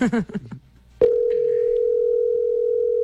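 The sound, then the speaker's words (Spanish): A steady telephone line tone sounds after a number is dialed, following brief talk and then holding one even, unbroken pitch for about two seconds until it cuts off. “Empiezo a marcar, ahí va a sonar.”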